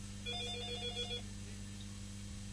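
A telephone rings with an incoming call, giving one trilling burst of rapid, high electronic pulses that lasts about a second, then steady low hum.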